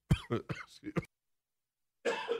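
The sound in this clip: Harsh coughs and throat clearing come in a quick run of rough bursts, then a short silence before one more raspy cough.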